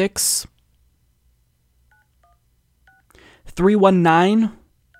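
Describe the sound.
Telephone keypad tones dial a state capitol office number as a few short, quiet beeps in sequence. A voice speaks afterward.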